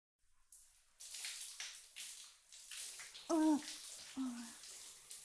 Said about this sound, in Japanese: お前、髪洗ってくれるのはいいけど、少々間が悪いぞ。